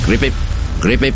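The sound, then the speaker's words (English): A man's voice imitates a frog croak with two quick pairs of clipped, throaty syllables. A short pause separates the pairs, and the voice is loud and close. “That's the sound of a frog. A ribbit.”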